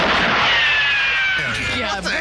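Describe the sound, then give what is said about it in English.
Gunshot sound effect from a 1966 recording: a rough, noisy burst with a high, thin whine that slides steadily downward for over a second before a coarser, uneven tail. “I just want to give a special shout out to the gun sound effects from 1966.”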